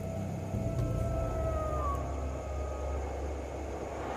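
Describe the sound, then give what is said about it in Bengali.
Jackals howling from all sides as wind rises under a reddening sky, heard as faint, wavering high-pitched howls drifting over a steady low rumble of wind, quiet throughout. “চারিদিক থেকে হঠাৎ করে অনেকগুলো শেয়ালের ডাক শুনতে পাচ্ছি”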